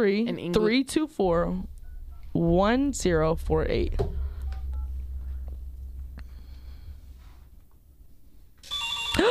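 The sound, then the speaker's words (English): A telephone rings in several bursts of bright, warbling electronic tone, followed by a quieter stretch of low hum, then one more loud burst of ringing at the end. “The phone is ringing, guys.”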